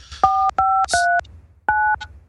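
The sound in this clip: Telephone keypad dialing tones: four steady, even-loud beeps. The first three come in quick, regular succession, then a short pause before the fourth.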